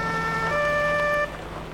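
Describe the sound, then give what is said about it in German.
Ambulance siren sounding a loud, steady electronic tone rich in stacked harmonics. The tone holds level, then the upper tones cut off abruptly near the end, leaving a lower, quieter hum. “Da kommt der Krankenwagen.”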